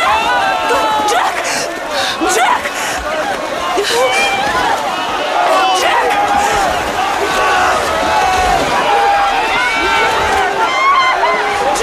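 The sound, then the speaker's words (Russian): Crowd of drowning people thrashing in black water after a ship sinks, a loud, sustained mass of shrill overlapping screams and shouts that continues without a break for about twelve seconds. “В кадре толпа тонущих людей, взбивающих руками в пену черную воду.”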